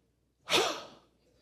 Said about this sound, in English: just take a deep breath and just say,